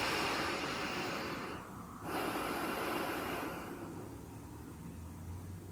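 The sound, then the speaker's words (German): Deep, full breathing in and out through the nose during a guided relaxation exercise: long airy rushes of breath with a brief dip between them, the second phase easing softer toward the end, with no talk. “Schließe die Augen und atme jetzt tief und vollständig durch die Nase ein und aus.”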